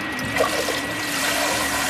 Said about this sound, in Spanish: Mira, ha metido la forma en el agua y ha... Sacar. Ha filtrado el agua y ha quedado tejido.